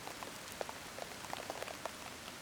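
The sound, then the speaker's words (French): Light forest rain recorded at ground level, falling on leaves. Many soft, scattered drip taps land over a faint, steady patter, with no voices. “Ambiance extérieure jour forêt. Pluie pas énorme mais jolie prise au ras du sol. Détail sur les gouttes sur feuilles.”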